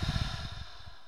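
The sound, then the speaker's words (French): A slow, deep breath is drawn in through the nose and let out through the mouth during a guided breathing exercise. It is faint and airy, with a soft breathy start that thins into a gentle, steady hiss. “je t'invite à prendre une inspiration la plus longue possible par le nez en gonflant ton ventre, tes poumons et expirer par la bouche.”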